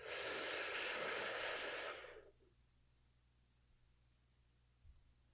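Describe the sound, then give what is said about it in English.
One deep, airy breath taken during a guided relaxation exercise sounds as a loud, steady rush of air for about two seconds. It then fades away, leaving near silence with a faint low hum. “So let's go ahead and take a deep breath in.”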